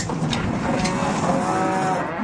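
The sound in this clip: Cows moo at milking time, giving drawn-out, overlapping lowing calls over a dense, continuous farmyard background.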